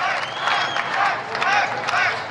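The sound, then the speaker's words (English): Crowd at an outdoor political rally clapping, a steady wash of applause and crowd noise that holds at an even level throughout, with a few brief louder swells. “they're clapping”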